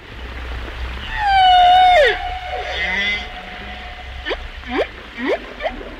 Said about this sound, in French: Et une baleine guadeloupéenne.